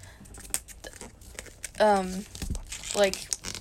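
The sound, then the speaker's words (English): Paper being rustled and folded gives crinkly, scratchy bursts at irregular moments, heard under people talking. “stop rustling your paper! I'm not. Stop folding it, because it makes noise, and it's going to show up in the audio.”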